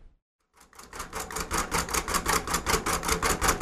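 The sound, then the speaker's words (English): Someone types on a braille writing machine (a brailler). After a brief silence comes a quick, steady run of many sharp mechanical clacks at an even rhythm, with no speech. “That's the sound of someone using a brailler.”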